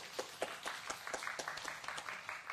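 A church audience claps in a faint, fairly regular rhythm, many distinct hand claps landing roughly every quarter second over a soft bed of scattered clapping.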